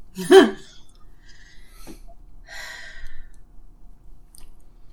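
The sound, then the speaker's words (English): An impatient groan: one strong, breathy sigh-like burst at the start, followed by fainter breathy sounds and near silence. “Again, he's getting impatient and groaning”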